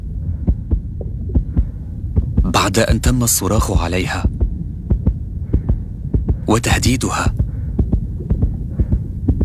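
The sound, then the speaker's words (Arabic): A nurse's heartbeat thuds in a steady, even rhythm throughout, low and throbbing, while a voice speaks over it in two separate passages. “هذا صوت معدل ضربات قلب ممرضة.”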